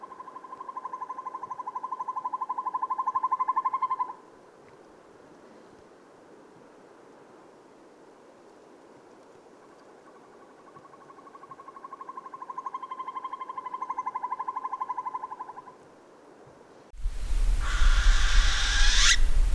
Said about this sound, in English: Northern Hawk Owl.